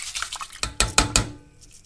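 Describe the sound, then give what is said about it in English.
A utensil clinks and scrapes in a pan as milk is added to rice and stirred for rice pudding. A few sharp metallic knocks stand out in the middle over soft, wet stirring, with no talk. “Milk in the pan. In the rice.”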